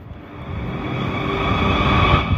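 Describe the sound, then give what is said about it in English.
Ambience on a train station platform while waiting for a train: a steady, loud low rumble with a faint tonal hum that slowly swells. No voices are heard. “I'm at working station waiting for my train. Although I need to move down the platform a bit, really.”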